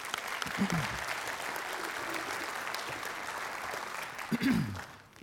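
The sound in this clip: An audience applauds to welcome a speaker coming up to share her story at a talk. The clapping is steady and moderately loud, with brief voices near the start and again near the end, then fades out at the close.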